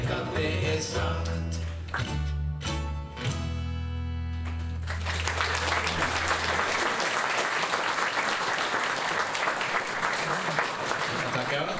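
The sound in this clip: An audience claps along to the beat over bass-heavy music, then the rhythmic claps give way to sustained, dense applause.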